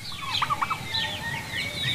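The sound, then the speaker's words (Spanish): Duck calls: several short, high chirping peeps in quick succession, then a few more spaced out, over a low rumbling background. “¿Qué es esto? Ah, un pato.”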